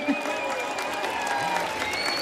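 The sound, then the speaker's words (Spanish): Audience applause at a live concert in Cartagena: dense, steady clapping that holds at an even level for the whole stretch, with some voices mixed in. “Otro fortísimo aplauso para ellos, por favor.”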